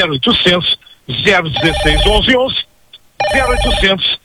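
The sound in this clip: Telephones ring with incoming calls in a few loud, tonal bursts separated by short gaps, with voices mixed in.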